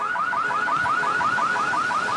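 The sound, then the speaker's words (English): A Kia car alarm is going off, repeating a rapid series of identical rising chirps at a steady rhythm. The tone is loud and continuous with no pauses. “That's what they get for driving a Kia, I guess. What a piece of shit that was. These things, the alarm eventually goes off, right?”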